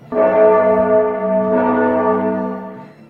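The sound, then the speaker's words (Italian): A bell chime marking the exact time in the afternoon: one loud, sustained, ringing tone rich in overtones that fades slowly over about three seconds, heard alone. “Quando sentirete il rintocco saranno esattamente le 3:49 pomeridiane, ora media della costa orientale.”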